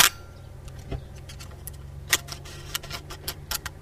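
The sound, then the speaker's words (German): A Pentax K1000 SE manual film camera being handled gives a string of sharp mechanical clicks and ratchet-like snaps, irregularly spaced and varying in loudness, faint and heard alone over a quiet background. “Und das ist, ich vermute mal, seine Pentax K1000 SE.”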